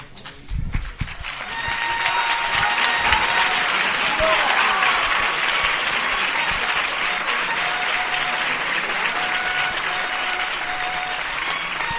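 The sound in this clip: A neighbourhood crowd in Triana applauds as the Esperanza Holy Week procession float leaves the church into the street: a few sharp knocks at first, then loud, sustained clapping that continues to the end, mixed with crowd voices.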